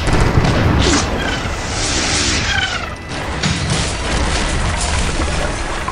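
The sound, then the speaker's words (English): Cannon broadside fired from a sailing ship in a sea battle: loud, sustained booming and crashing roar that fills the whole clip with dense, heavy noise and no quiet gaps. “Load heavy shot! Heavy shot! Broadside! Fire! Fire!”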